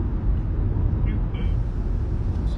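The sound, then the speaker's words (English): A car drives into a tunnel, heard as a steady, low road and engine rumble beneath a voice talking. “switching back to the radio as I'm driving into a tunnel here.”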